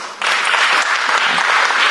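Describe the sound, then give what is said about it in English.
Applause welcoming an author, a loud, dense wash of clapping that surges in sharply after a brief quieter moment and holds steady to the end. “So we're jumping the gun, and all of you have actually already applauded and jumped the gun, but we'll do it again.”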